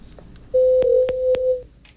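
An incoming telephone call sounds as a single steady electronic tone lasting about a second, crossed by three faint clicks, heard alone without talk.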